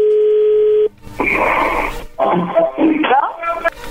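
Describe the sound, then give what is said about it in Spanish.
Telephone dial tone and redialing on a prank call: a steady hum-like tone cuts off, followed by bursts of mixed, noisy line sounds and beeps of shifting pitch, with voices talking over parts of it. “¿Puedes marcar de vuelta? Sí, le están marcando de nuevo.”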